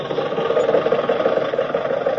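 A car engine running at a steady idle-like pace, an even mid-pitched hum with a light pulsing texture and no change in speed throughout.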